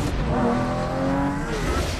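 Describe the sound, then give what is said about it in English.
A Lamborghini sports car's engine drones loudly and steadily, its harmonic growl holding throughout with a slight upward drift in pitch, as if revving. “Will you be wanting the Batpod, sir? In the middle of the day, Alfred? Not very subtle. The Lamborghini then.”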